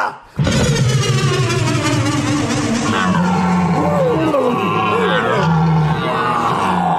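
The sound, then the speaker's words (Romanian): A loud lion roar from a character who has just turned himself into a lion, rough and growling, starting after a brief quiet moment and running almost continuously for about seven seconds. “Acum sunt leu! Leu, leu! Că fioros mai e!”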